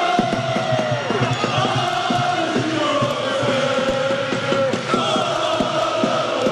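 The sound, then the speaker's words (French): A stadium crowd of about 17,000 football fans cheers on their team during a match that clinches promotion. The roar of massed voices is loud and continuous, with shouts rising out of it throughout. “au stade Abbé Deschamps, près de 17 000 spectateurs qui ont acclamé leur équipe pour la pousser jusqu'au bout.”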